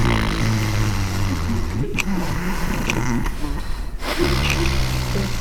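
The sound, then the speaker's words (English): A voice imitates a small child with a cold breathing through a blocked nose: loud, continuous snuffling, snore-like nasal breaths with a rough, buzzing tone, broken into a few long stretches. “if she got a cold, she wouldn't just open her mouth and breathe through her mouth like you and I do. She would breathe like this.”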